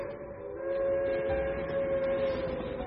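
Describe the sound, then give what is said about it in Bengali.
A railway engine whistle sounds as one long, steady, unbroken tone with rich harmonics. It holds at a fairly even, moderate level through the whole stretch, with no other sounds alongside it. “দূরে একটা রেলের engine একটানা বাঁশি বাজাতে বাজাতে আরো দূরে গিয়ে মিলিয়ে গেল।”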